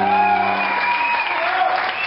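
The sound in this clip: Audience applause at a live concert, honoring the band Buena Moza after its set: dense, steady clapping that holds at an even, fairly loud level for about two seconds, with a faint low hum beneath it at the start.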